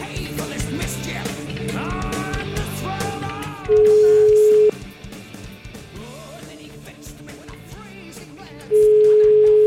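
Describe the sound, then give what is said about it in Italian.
Telephone ringback tone as a call is placed: two long, steady mid-pitched beeps about five seconds apart, with loud music playing in between and underneath. “La facciamo una telefonatina o no? Chiama, chiama”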